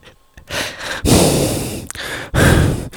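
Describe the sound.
Heavy breathing straight into a microphone: a few loud, breathy inhales and exhales with strong airy hiss, separated by brief pauses and heard alone.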